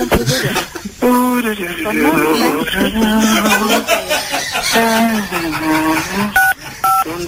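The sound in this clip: Telephone keypad tones dial 1 on an embassy's automated phone menu, with two short, steady dual-tone beeps near the end after a stretch of loud voices.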